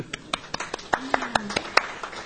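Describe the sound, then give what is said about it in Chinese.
Scattered hand claps from a few people at a Bible study gathering: sharp, separate smacks at a fairly steady pace, with a faint voice underneath. “呢、這個值得鼓掌啊！”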